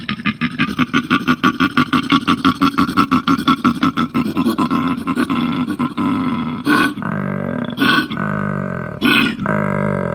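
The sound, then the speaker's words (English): A male koala bellows and grunts, first in a long run of rapid, rasping pulsed snorts, then in deeper, longer drawn-out bellows broken by a few sharp gasping breaths, loud and alone. “Those freaky sounds were actually made by a koala. Koalas have an extra set of vocal folds outside of the larynx, which allows them to create these deep bellows and grunts.”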